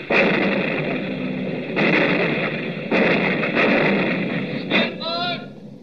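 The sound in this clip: Anti-aircraft guns fire in heavy booming bursts over a dense, continuous rumbling din, with a few louder surges and a warbling whistle-like sweep near the end.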